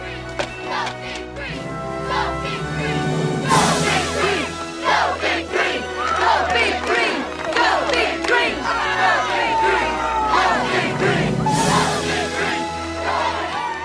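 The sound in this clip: A crowd at a championship game shouts and chants, loud and sustained, with rhythmic surges of voices rising and falling throughout.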